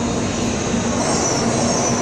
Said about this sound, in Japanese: ちょうど新幹線が来たのでこれから乗ります